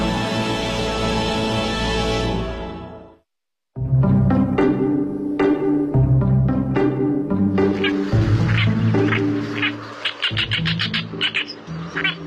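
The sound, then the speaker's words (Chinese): Oriental reed warbler song: loud, harsh chattering made of many rapid, croaky, repeated notes delivered in quick bursts, with no voices over it. “我叫东方大尾鹰，是尾鹰科尾鹰属的鸟类。”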